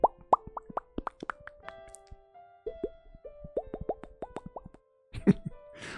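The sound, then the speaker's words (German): Lip pops made with the mouth by pressing the lips together, building light air pressure, then opening them: many quick, hollow plops in irregular runs with brief pauses, heard alone. “das sind einfach meine Lippen zusammengepresst und dann einfach ein bisschen Luft an die Lippen ge gedrückt. So ein ganz leichter Druck und dann die Lippen geöffnet. Also, ich mache das mit meinem Mund.”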